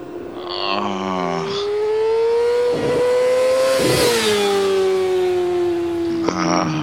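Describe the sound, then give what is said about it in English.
Sport motorcycle engine revving in one loud, sustained howl, its pitch climbing gradually to a peak midway and then easing lower, with sharper bursts near the start and end. “Sweet sound, those crotch rockets.”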